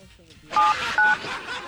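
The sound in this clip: Telephone keypad dialing tones: three short, clear electronic beeps, each a pair of steady pitches, evenly spaced and loud over soft voice sounds.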